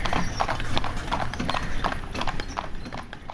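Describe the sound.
Hooves clip-clopping as horses trot uphill. A dense, steady stream of quick hoof strikes sounds over a constant low rumble throughout.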